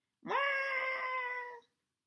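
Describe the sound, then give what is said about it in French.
A fox cub crying out in a cradle: one high, wailing cry that rises sharply at the start, then holds a steady, cat-like tone for over a second before cutting off. “Dans un berceau, il y a un petit renardeau qui crie.”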